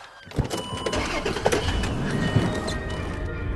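A car drives away in a hurry, its engine noise swelling and holding at a steady roar, with a few bumps and knocks near the start.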